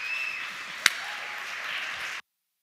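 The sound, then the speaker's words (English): A church audience applauding to welcome a pastor: dense, steady clapping at an even level, with one brief sharp click early on, before the sound cuts off abruptly. “Put your hands together. Come on, church. Let's welcome Pastor Abel Aguilar.”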